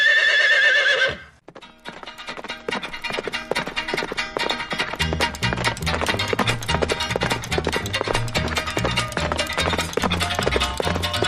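A horse gives a loud, high whinny lasting just over a second, followed by a steady, rhythmic run of clip-clopping hoofbeats that continues to the end.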